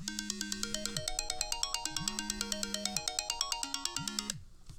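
An electronic telephone ringtone plays a bright, repeating melodic pattern of quick pulsing notes as a caller dials in. The pattern cycles steadily several times and then cuts off abruptly near the end.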